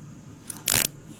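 Handcuffs clicking shut during a police stop: one brief ratcheting rasp that stands out against a quiet background hiss.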